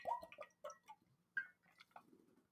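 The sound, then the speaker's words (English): Someone takes a quick drink: a few faint, soft wet gulps and clicks come in short separate bursts, with no talking. “Quick drink, hang on.”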